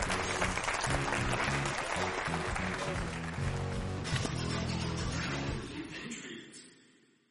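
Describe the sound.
Applause and cheering greet a guest on a sports talk set, loud and dense over music, holding steady before fading out over the last couple of seconds.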